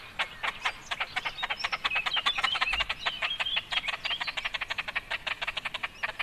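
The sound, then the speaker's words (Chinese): A large bird gives a call recorded in 2019. It is a rapid, steady train of many short, rasping, croak-like pulses, with thin higher chirps woven through the middle of the series. “感觉这种比较大型的鸟，毛茸茸的这个雏鸟的叫声都蛮接近的、哦、 是啊、嗯、那我们来听听它的其他叫声”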